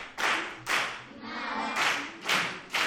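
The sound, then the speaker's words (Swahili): Classroom clapping for a pupil's correct answer in a lesson: a few loud bursts of group hand claps, with a voice heard in the gap between them. “Hebu mpigie makofi.”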